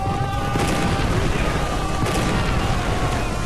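Cannon fire in a battle between English and French forces, heard as a dense, loud, continuous roar of booms and crackling blasts with no distinct pauses.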